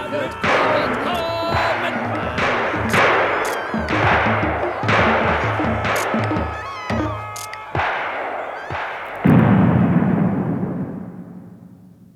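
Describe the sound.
A volley of gunfire after a command to fire on a forbidden ghost dance, many loud, sharp shots in rapid, irregular succession with voices mixed in, ending in a fading low rumble.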